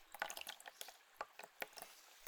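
Warm water poured from a wash bucket over the scalp during a scalp massage makes soft, quiet splashes and drips in a few irregular bursts, with no talking.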